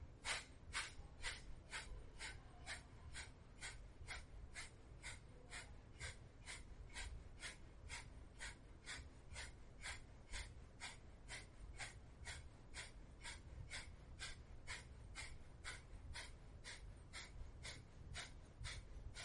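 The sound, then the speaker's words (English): Kapalabhati yoga breathing: many rapid, forceful nasal exhalations in a steady, even rhythm, each a short, sharp puff of breath, sustained at a constant loudness for about twenty seconds with no talking. “So Kapalabhati for about 20 seconds.”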